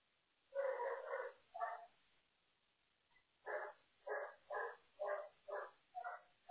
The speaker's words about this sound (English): Sorry for the dog.